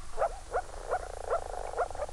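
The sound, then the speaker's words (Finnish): Male moor frogs make soft bubbling calls as spawning begins and more frogs rise to the water's surface. Faint, low, gurgling pulses repeat in a quick series about every half second. “Poikamiehet aloittavat pulputuksen ja sen seurauksena alkaa lisää sammakoita nousta pinnalle.”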